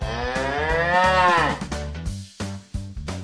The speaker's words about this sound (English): Learn farm animals. Cow.